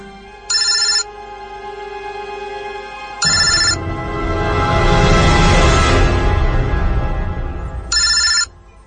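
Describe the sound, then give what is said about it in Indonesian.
A mobile phone rings with a bright electronic ringtone in three short bursts separated by long pauses, with a swelling wash of noise between the second and third bursts. “handphone Asma berdering. Dia mengangkat telepon itu.”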